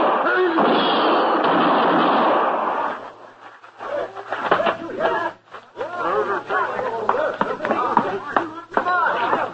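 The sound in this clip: Gunshots ring out in a radio drama, a loud, harsh blast with a sustained tail, followed by men talking.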